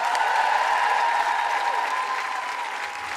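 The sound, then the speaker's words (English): A live comedy show crowd claps and whoops, a thick wash of applause with sustained cheering cries running through it, steady and loud throughout. “Please put your hands together and make excited woo-hooing noises”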